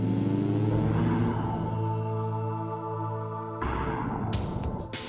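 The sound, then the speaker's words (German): Rumbling engine of a cartoon rocket landing on the moon: a steady low roar with a droning tonal hum, thinning briefly in the middle before swelling again toward the end. “Du musst nur den richtigen Knopf drücken. Butterweich landet die Rakete auf dem Mond.”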